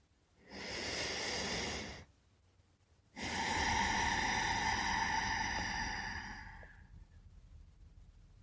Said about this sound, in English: Take a few deep breaths.